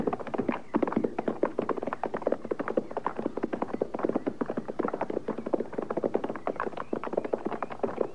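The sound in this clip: Horse hooves near a remote shack, many sharp, rhythmic clip-clop beats at a steady walking pace, moderately loud and continuing throughout with no voices.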